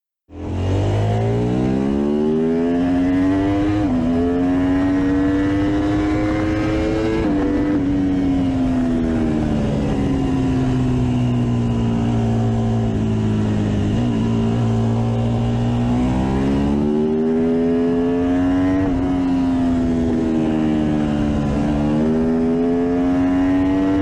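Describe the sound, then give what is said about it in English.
Ducati V4 motorcycle engine revving: the engine catches within the first second and climbs into a loud, continuous growl, then its pitch shifts through several rises and dips while holding strong to the end, with no voices. “if you want a V4 nowadays, another great sounding one comes from Ducati.”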